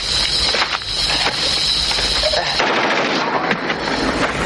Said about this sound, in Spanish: En mitad de la huida, los enemigos se encuentran con Highway, que acaba con los tres con su arma. Highway remata al último cuando llegan sus hombres.